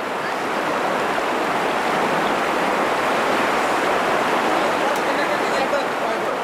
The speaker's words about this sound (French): comme cette traversée de rapide, l'eau est glaciale et la plupart de ces enfants ne savent pas nager.